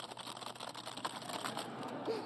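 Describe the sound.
Slow, faint typing on a keyboard: many quiet key clicks in an irregular, unhurried rhythm.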